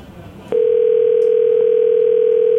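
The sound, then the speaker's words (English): A telephone dial tone sounds as a phone line is picked up. After a brief low rustle, a loud, steady, unbroken single-pitched tone starts abruptly and holds to the end. “let's take a caller right now. Pick up one of the lines”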